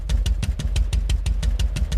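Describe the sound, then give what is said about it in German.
A Harley-Davidson motorcycle engine is running, producing a loud, low, evenly spaced thumping beat of about six pulses per second that continues steadily throughout. “klingt nur eine Harley. Es ist der Beat des Motors, der die Fans fasziniert. Den hörst du und den spürst du.”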